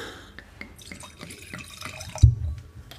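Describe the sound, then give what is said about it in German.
Wine pours from a bottle in a few soft drips and splashes, then a louder, fuller gush of liquid near the end. No one speaks. “Ich schenke dir einfach mal, oder ich gebe dir die Flasche ein bisschen. Oder so, ich halte sie hin.”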